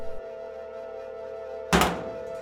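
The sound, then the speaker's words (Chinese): A single heavy thud as a temple main hall's door is pulled tightly shut, sounding once near the end over a steady low hum. “吴梅村引向南风一个人进入了老君庙的正殿，随手便紧紧地关上了殿门。”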